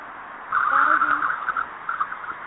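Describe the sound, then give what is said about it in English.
A car drives past: a broad rush of road noise rises sharply and holds steady, then fades unevenly over the last second with a few small surges. “Somebody driving.”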